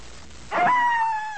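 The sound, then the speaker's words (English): A single short wolf howl. It begins with a quick upward sweep, then holds a clear, steady tone that fades slightly toward the end. No other sounds or voices are heard. “That was a wolf.”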